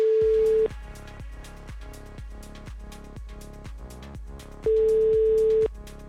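A telephone call ringing unanswered: two long, steady ringback tone bursts, one at the start and one near the end, sit over a regular, evenly paced thumping beat that continues throughout.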